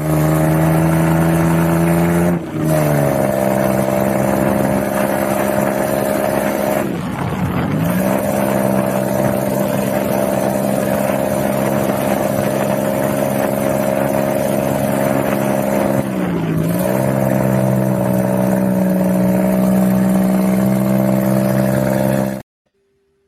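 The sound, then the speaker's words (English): An ATV engine drones while being driven in the Dominican Republic, a loud steady mid-pitched hum that briefly dips three times before cutting off near the end. “This is me in Dominican Republic for my birthday doing the ATVs. Check this one out. It'll just let you kind of see the perspective of me driving with my hands on the steering wheel”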